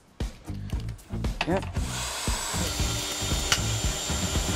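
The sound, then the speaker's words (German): A power screwdriver drives a screw into a wooden board. After some brief talk and handling noise, its motor starts a steady, high whine that holds for several seconds. “Und dann kommt in jedes dieser Bretter eine Schraube.”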